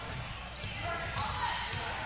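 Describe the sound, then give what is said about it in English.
A basketball is dribbled on the court during a high school game, its bounces buried in steady, loud crowd noise with no clear separate beats. “Dribbling in the lane.”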